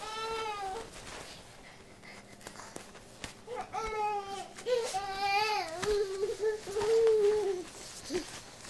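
A baby fusses and cries in a string of wavering, whimpering wails that rise and fall in pitch, quieter at first and growing louder and more sustained in the second half.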